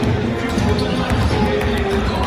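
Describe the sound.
A basketball thumps on the court as a player shoots for the hoop. Dull, repeated bounces sit under a steady crowd murmur, and voices talk over them.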